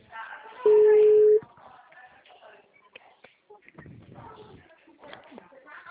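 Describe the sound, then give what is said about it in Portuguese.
An outgoing telephone call is placed, and a single loud, steady mid-pitched tone sounds for under a second. Quieter rustling and muffled voices follow. “Gente, vou fazer a ligação, tá?”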